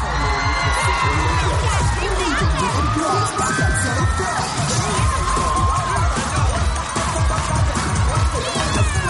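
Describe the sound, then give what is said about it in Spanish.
An audience cheers and applauds a dance performance: a loud, dense wall of crowd noise with shouts and clapping that holds steady for the whole stretch. “En la grada, Lily aplaude entusiasmada junto a Christian que mira preocupado el espectáculo.”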